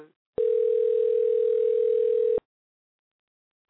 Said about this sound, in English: I hear a phone ringing.